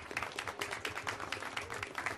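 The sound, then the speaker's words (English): A round of applause at a gathering thanks a staff member for behind-the-scenes work. The clapping is faint but steady, a continuous patter of many hands with small swells in a loose rhythm. “who really deserves a round of applause.”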